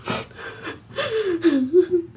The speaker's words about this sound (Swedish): Ta ett par djupa andetag.